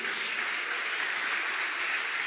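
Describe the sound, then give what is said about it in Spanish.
An audience applauds during a church service, a steady, faint wash of many hands clapping together that lasts the whole moment, with no voices heard. “Amén, aplaudan al Señor.”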